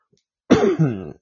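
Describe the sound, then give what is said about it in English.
A person with allergies lets out one rough, throaty cough, a single loud voiced burst that swells again before trailing off, alone against silence. “Yes, still a little bit of the cough, people. Sorry about that.”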